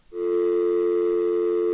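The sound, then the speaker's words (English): Telephone dial tone, switched on abruptly and held as a loud, steady, unbroken pitch for under two seconds. “Let's turn on the dial tone, just in case... Just in case they tried to pick up that other call.”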